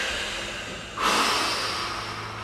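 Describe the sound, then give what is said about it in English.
A powerful exhale during a guided breathing exercise: a single strong, breathy rush of air bursts out partway through, then trails off slowly over a faint steady background hiss. “And when it comes into your mind, powerfully exhale it out into the room.”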